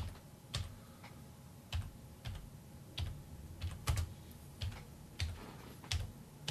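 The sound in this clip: Typing on a computer keyboard as a name is entered: many quick, faint key clicks in short irregular bursts, with no voices.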